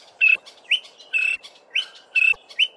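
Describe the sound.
A greater honeyguide calls, repeating about six clear, high chirping notes in a steady rhythm that alternates longer and shorter upslurred notes, over faint background noise.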